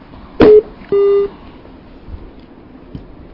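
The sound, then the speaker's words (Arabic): Telephone line beeps as a caller's call drops: two electronic tones, a short one and then a longer steady one, over a low background hiss. “يبدو أن المتصل قد انقطع الاتصال بيننا وبينه.”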